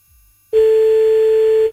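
A single steady telephone ring tone sounds for about a second on a line while calling someone back, after a brief faint murmur.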